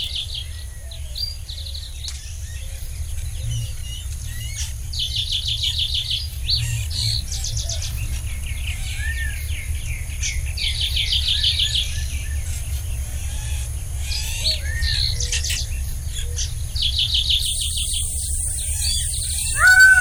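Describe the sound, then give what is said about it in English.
Desert park soundscape in southern Arizona with many animals: repeated bird chirps and trills over a steady insect buzz and a low, constant background rumble throughout. “It's actually the sound of many animals, and it's not necessarily any one animal sound, but it's the sound of a place.”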